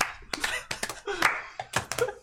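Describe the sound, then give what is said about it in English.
Hand claps imitating horse hooves, a quick, irregular clop-clop of several sharp claps with brief vocal noises mixed in among them. “As soon as it gets quiet and the only sounds you hear is the clapping of the horses and the rain.”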